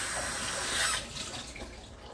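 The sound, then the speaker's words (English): Running water from a tap as small unpeeled vegetables for soup are rinsed under it. A steady, hissing flow swells briefly near the middle and then settles back, with no voices. “And I don't think I'm gonna peel them because they're so small. So I'm just gonna wash them off.”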